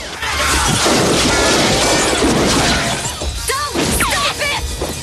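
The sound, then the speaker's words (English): Glass shatters as a person crashes into a glass wall during a gunfight, a loud, dense crash of breaking glass that runs almost unbroken for several seconds. “The nurse crashes into a glass wall and lands on the floor.”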